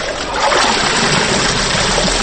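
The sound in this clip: Steady sloshing and splashing of water as an elderly woman, close to seventy, washes laundry by hand near a water source. The wet swishing holds an even level throughout, with no voices.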